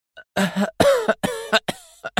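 A woman coughs as she regains consciousness, a series of harsh, rasping coughs in uneven bursts mixed with strained breathy murmurs.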